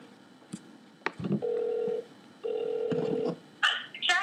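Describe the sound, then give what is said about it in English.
A telephone call being dialed and ringing: a few sharp clicks, then two long, steady, mid-pitched ringback tones separated by a short pause, followed by brief higher chirping tones. “And in fact, we're going to make another phone call really quick.”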